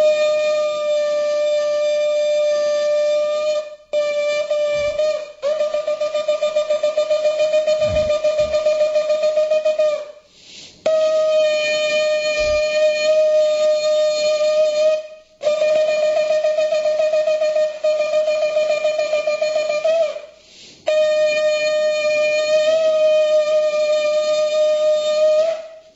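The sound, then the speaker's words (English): A shofar, a ram's horn, sounded in temple after the Torah reading, giving a series of long, steady, loud horn blasts with a bright buzzing tone, separated by short breaks, including one brief blast near the start. “This is the sound of the shofar, which is read in temple after the reading of the Torah.”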